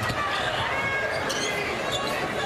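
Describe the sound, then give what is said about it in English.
A basketball is dribbled on the court during a women's game involving the Badgers, its bounces faint and buried under steady crowd noise and a commentator's talk. “Williams gathers that rebound, and she'll dribble into the front court.”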